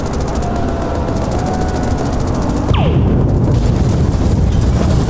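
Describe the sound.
A short-range pulse weapon fires from a vehicle under attack, one sharp zap sweeping downward in pitch midway through a loud, constant roar that swells after the shot.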